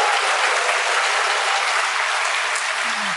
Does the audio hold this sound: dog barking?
no